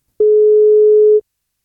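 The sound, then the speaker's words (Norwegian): A telephone ringing tone on an outgoing call gives one loud, steady, mid-pitched tone that lasts about a second and then stops cleanly into silence. “Vi plukker opp telefonen og ser om vi får tak I Susanne som blir 31 år I dag.”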